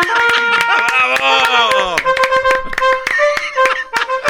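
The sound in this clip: Brisk hand clapping given on request, a fast steady run of sharp claps mixed with loud voices.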